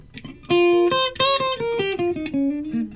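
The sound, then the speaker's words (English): Electric guitar plays a short blues-style run of clear, sustained single notes that step mostly downward in pitch, each attack crisp and ringing, with a brief pause before the phrase begins. “That's the electric guitar.”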